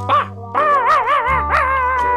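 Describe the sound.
A small teddy dog, a toy poodle, yaps at a window in a few high, whiny barks, with one drawn-out wavering yelp in the middle, over a low steady hum.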